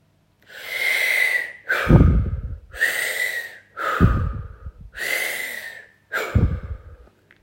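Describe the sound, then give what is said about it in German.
Deep, rhythmic breathing: six loud, airy breaths in all, forming three slow in-and-out cycles. The heavier breaths carry a low, rough edge, with short gaps between them and no talking. “Wunderbar, großartig. Atme weiter und weiter.”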